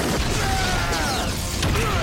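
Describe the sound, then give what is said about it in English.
A lightning bolt power attack effect: a dense, crackling burst of noise threaded with sweeping electronic tones, loud and continuous throughout. “Let's double the power! Lightning Bolt!”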